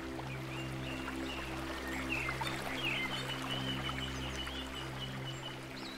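Water flows steadily in a forest, a continuous, even rushing wash with a low hum beneath it and a few faint bird chirps midway through.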